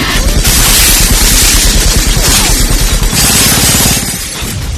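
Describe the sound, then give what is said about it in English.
Rapid chain gun fire from the 1999 film The Matrix, a loud, relentless fusillade of shots mixed with shattering debris, easing slightly near the end. “A little Matrix chain gun action for you while we the bullets while we leave. Flying. Yeah, the bullets are flying”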